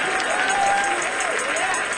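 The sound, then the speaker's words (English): A church audience claps in praise, a steady rhythmic clapping under voices that sing and call out together in sustained, wavering tones. “clap your hands, give him praise.”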